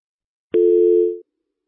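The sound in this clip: A telephone tone sounds after a dropped call: one steady, mid-pitched electronic beep lasting under a second, clear and alone against silence.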